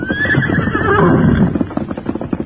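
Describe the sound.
A horse whinnies in a long, loud neigh that falls in pitch, followed by a run of quick hoof clip-clops as riders saddle up.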